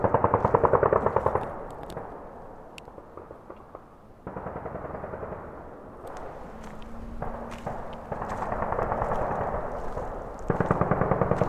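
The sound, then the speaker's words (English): Blank rounds fire during U.S. Army Ranger training exercises: two loud bursts of rapid automatic gunfire, one at the start and one at the end, with quieter rattling shots in between. “it turns out the U.S. Army Ranger Program conducts training exercises throughout this area. A few of us hikers walked out towards a viewpoint where we could see the flashes of light from the blanks being”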